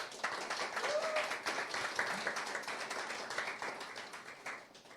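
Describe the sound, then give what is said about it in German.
Audience applause for the event's setup helpers: a steady, fairly faint wash of many hands clapping that holds evenly through the whole stretch. “Also an der Stelle auch gleich nochmal einen Applaus an die ganzen Aufbauhelfer,”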